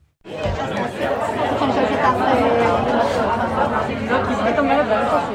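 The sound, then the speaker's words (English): Families and volunteers chatter inside a busy headquarters for hostage families in Tel Aviv, many overlapping voices forming a dense, steady babble that begins after a brief silence and stays loud throughout. “That's the sound of families and volunteers inside Tel Aviv's Hostage Circle headquarters.”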